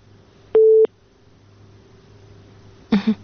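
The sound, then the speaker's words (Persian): A single steady telephone tone sounds once after a call drops, followed by a short, faint noisy burst near the end. “فکر کنم تماس اینو قطع شد.”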